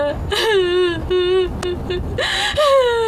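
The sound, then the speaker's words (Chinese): A person cries in short, high, quavering wails. Each sob sinks in pitch, and the crying comes in several bursts broken by catching breaths. “你再哭也扶不过来啊！啊，别哭了啊！”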